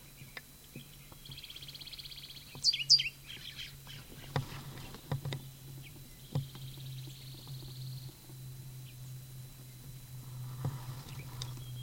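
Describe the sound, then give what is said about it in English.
A bird calls from down a canyon in a few bursts of high, thin chirping trills, separated by quiet gaps. The calls are faint and sit over a steady low hum and scattered soft clicks. “10:35, bird down canyon.”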